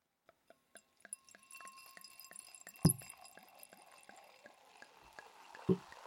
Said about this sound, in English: we're going to pop this bottle open.